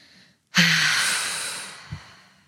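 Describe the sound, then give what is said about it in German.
A person breathes deeply in through the nose and then forcefully out through the mouth during a meditation exercise: a faint intake, a short pause, then a sudden loud, breathy rush of air that slowly fades over about two seconds. “Dann nochmal tief einatmen über die Nase, bis der Bauch ganz, ganz prall, ganz, ganz voll ist und dann aus über den Mund ganz energisch.”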